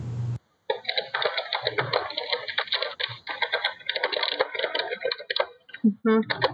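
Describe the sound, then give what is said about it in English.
Fast typing on a computer keyboard: a dense, continuous stream of sharp clicks and taps that runs for several seconds after a short silence at the start. “He's typing furiously.”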